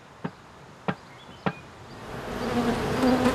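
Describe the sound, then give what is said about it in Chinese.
Bees buzz around a hive box where a colony has settled. Three sharp taps come first, evenly spaced, then a dense, steady hum of bees swells and holds to the end. “四个月前放置在这里的一个蜂箱，蜜蜂已经在里面安了家。”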